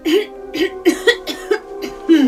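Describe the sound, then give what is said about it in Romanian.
A woman suspected of having a cold coughs in a series of short, voiced, throaty bursts, some louder than others, with brief pauses between them. “Păi, atunci de ce tușești?”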